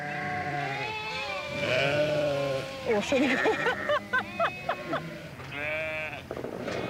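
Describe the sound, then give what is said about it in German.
Sheep bleat out in the open at Hohwachter Bucht, a string of wavering, nasal calls rising and falling in pitch, fairly faint over a steady low background rumble. “Geschützdonner und Geblöke. Das gehört zusammen in der Hohwachter Bucht.”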